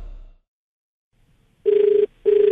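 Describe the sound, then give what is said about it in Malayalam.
Telephone ringing for an outgoing call from a radio phone-in song programme: after near silence come two buzzy, steady mid-pitched rings separated by a short gap, the second cut off at the end. “ഞാൻ Akashvani Kochi F M phone out ഗാനോത്സവത്തിൽ നിന്ന് വിളിക്കുകയാണ്.”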